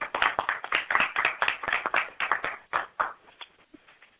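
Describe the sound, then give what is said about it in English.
Audience applause welcoming a guest on stage, a burst of dense, steady clapping from many hands that thins into a few scattered claps near the end. “Let's give Louise a hand.”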